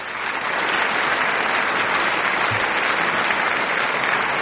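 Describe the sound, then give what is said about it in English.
Audience applause sound effect played for a correct answer, dense and steady clapping with crowd noise that holds an even loudness for several seconds. “When the audience applauses that your guest got it right, Mm-hmm. It's not as powerful as the booing.”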